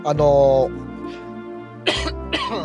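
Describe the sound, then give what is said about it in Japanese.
Coughing from a person with a cold at the change of seasons: a voiced throat sound, then a few short, rough bursts in the latter half, with no other sounds around them. “まあちょっと咳が出てあれなんですけど、やっぱ風邪っぽいですかね”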